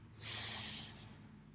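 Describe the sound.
Deep breath in during a breathing meditation: a single soft, airy intake that swells quickly, holds briefly and then tapers away, with no talk over it.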